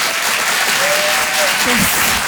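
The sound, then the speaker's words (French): An audience at an evening show in Paris breaks into thunderous applause for a performer, producing dense, loud, even clapping that runs throughout. “Je vous demande un tonnerre d'applaudissements là aussi pour Philippine Delerre.”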